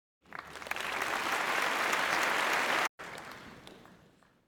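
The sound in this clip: A show audience applauds to welcome a guest, the clapping swelling quickly to a loud, dense roar, breaking off for an instant, then resuming and tapering away.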